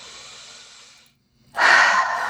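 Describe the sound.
A deep breath taken during a rib-tapping relaxation exercise: a soft, airy breath, a short silent pause, then a louder, rushing breath.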